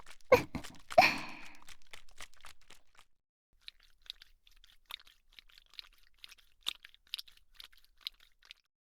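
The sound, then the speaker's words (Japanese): Vigorous oily ear massage with ASMR close-up sound: dense, loud rubbing and crackling for about three seconds, then a sparse run of soft wet clicks and squelches, no voices. “それでは激しめのお耳マッサージさせていただきます。”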